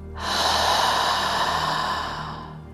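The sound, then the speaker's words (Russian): A single long, full human breath rushes loud and airy for over two seconds, breathy and unvoiced, with nothing else around it. “И сделаем полный вдох через нос. И выдох через рот.”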